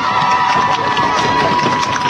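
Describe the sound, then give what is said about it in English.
Cheering and clapping from teammates in the dugout and fans in the stands at a Williamsville softball game, a brief, continuous roar of crowd noise without a break or any clear speech. “who gets a big round of applause from her teammates in the dugout and the fans in the stands as she gets ready to go to work in the bottom of the sixth”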